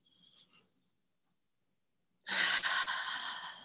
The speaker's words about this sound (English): And let's take a few letting go breaths.